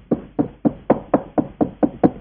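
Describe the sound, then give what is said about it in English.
Knocking on a door: a steady, evenly spaced series of hollow, low knocks, each sharp at the start and quickly fading, loud and alone with no voices. “He knocked at the second door.”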